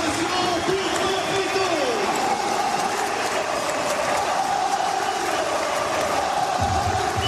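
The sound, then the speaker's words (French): Football supporters in the Populaire Sud stand at an OGC Nice home match against Rennes cheer a goalscorer, a continuous, loud, dense roar of many voices that holds steady throughout. “Pablito, Pablito, on vient d'entendre le public de la Populaire Sud vous acclamer, c'était en avril 2016”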